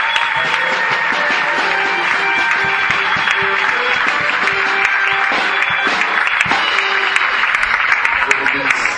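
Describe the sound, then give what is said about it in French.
Applause from a church audience thanking the Lord, dense and steady clapping that runs the full length, mixed with sustained musical tones and voices. “Est-ce qu'on peut dire merci au Seigneur et qu'on peut acclamer ses publics?”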